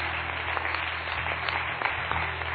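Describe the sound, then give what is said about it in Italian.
Applause from the audience at a church service, a dense, even wash of clapping held at steady volume, with a low constant hum beneath. “Fate un applauso a questi cari, Dio ti benedica.”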